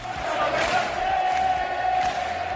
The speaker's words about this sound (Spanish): 25.000 aficionados que volvieron al estadio del Atlético de Madrid y que corearon, como no, ese gol de Ángel Correa que le dio otros 3 puntos al Atlético Madrid